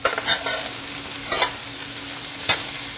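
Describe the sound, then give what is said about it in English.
Vegan soy butter goes into a sizzling pan and is stirred, a steady frying hiss broken by a few brief scraping stir strokes, with no talking. “Starting to look a little dry, so I'm just going to add a little bit of our vegan soy butter that we like.”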